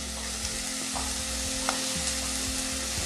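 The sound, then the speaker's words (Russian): Stalks sizzle in a frying pan as a dressing and marinade go in and get stirred, a steady bright hiss broken by a few soft scraping strokes. “Добавляем нашу заправку, наш маринад.”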